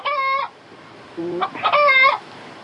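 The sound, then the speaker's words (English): A chicken loose in a hallway squawks and clucks in a few loud, harsh bursts with short pauses between them. “There's a chicken loose. A chicken? Yeah, so I don't know if someone brought in like a joke, like someone brought in a chicken here.”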